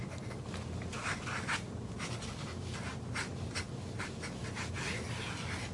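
A pencil scratches across paper while someone draws a sketch. Soft rubbing strokes run in a steady, quiet, continuous stream with many quick brushy accents.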